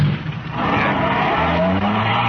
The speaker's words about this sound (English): Here's the car. Let's go. Ben, you drive.